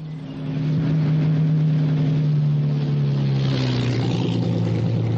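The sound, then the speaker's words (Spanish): A motorized military convoy rolls along a nearby road in a WWII setting. Truck engines fade in to a loud, steady droning hum, and the tone drops slightly in pitch toward the end. No voices are heard. “Un destacamento motorizado pasa por la carretera cercana.”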